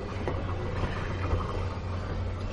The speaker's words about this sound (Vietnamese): Chiếc xe lửa phanh gấp giữa đường ray làm cho Thiên Chí